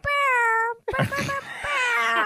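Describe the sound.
A person's voice imitates an air horn, but it comes out sounding like a cat's meow. A long, steady, buzzing harmonic tone stops for a short break. Then come louder, wavering vocal cries that rise and fall.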